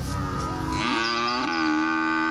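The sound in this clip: A cow gives one long, loud, drawn-out moo, rich in harmonics, heard alone without any talk.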